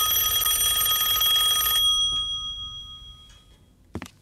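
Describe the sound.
A telephone rings with a bright, steady electronic tone that cuts off and fades away, followed by a short click near the end.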